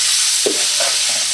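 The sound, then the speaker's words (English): Ground turkey sizzles in a pan while being stirred with a ladle and a teaspoon: a steady frying hiss runs throughout, broken by a few soft scraping strokes of the utensils, with no talk. “All right, so move this around. We got the ground turkey in there. Oh, you've got two spoons going. You've got a ladle and a spoon.”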